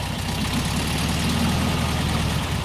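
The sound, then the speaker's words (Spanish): Steady, low idle of a 1975 Volkswagen Beetle's rear-mounted engine, a continuous throbbing rumble with a fast, even pulse that holds at a moderate level from start to end, with no voices. “Así suena un escarabajo del año 1975.”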